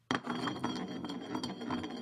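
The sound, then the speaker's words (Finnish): A glass bottle spins on a surface in a game of spin the bottle: a sudden start, then a continuous rattling, rubbing whir that wavers in loudness without stopping. “No mä pyöritän nyt, koska mä oon tänään vetovuorossa. Eli pistetään pullo pyörimään.”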